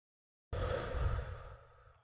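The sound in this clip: A long, breathy exhale follows a hit from a blue raspberry flavored CBD vape. It begins abruptly after a brief silence, then softens and trails off slowly as the air runs out.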